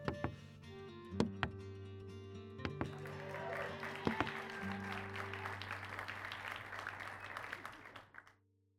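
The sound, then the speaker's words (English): Crowd cheering and applause rise after a song ends as stage curtains part, opening with a few sharp knocks before a dense, steady roar of clapping and cheers holds loud for several seconds, then cuts off. “the crowd cheers and the curtains begin to part for you.”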